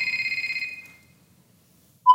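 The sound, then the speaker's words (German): Telephone ringing in an insurance office staged on a theatre rehearsal set: a rapid electronic warbling ring trills and fades out, about a second of silence follows, then a short, steady beep starts just before the end. “Immer wieder läutet das Telefon.”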